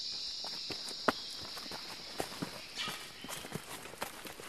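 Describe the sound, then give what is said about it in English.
Footsteps walking along a narrow track through an Australian rainforest plot on a ridge: soft, irregular crunching steps with a few sharper thuds, over a steady high-pitched insect-like buzz that thins out partway through. “So we're walking through the middle of the plot along our narrow track that we've got.”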